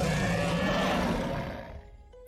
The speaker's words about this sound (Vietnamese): thất trảo kim long trên bầu trời cao truyền ra một tiếng gầm quanh quẩn trong tất cả tâm thần của nhân tộc.